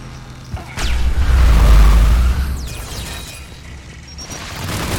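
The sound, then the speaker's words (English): Rocket explosions in a video game firefight: a whoosh leads into a loud, rolling boom that lasts over a second, followed by further whooshes and a softer rumbling blast near the end. “Let's dash into cover and not get hit by a million rockets.”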